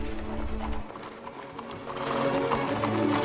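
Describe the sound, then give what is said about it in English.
Hooves of two black horses pulling a carriage clip-clop in a steady, even rhythm, the clatter continuing throughout with a slight swell in loudness toward the end. “Next, a carriage pulled by two black horses.”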